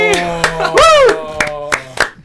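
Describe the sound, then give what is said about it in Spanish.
A few sharp hand claps in an irregular pattern, mixed with a loud, sustained tonal voice-like sound whose pitch swoops up and down. “Le aplaudo, excelente.”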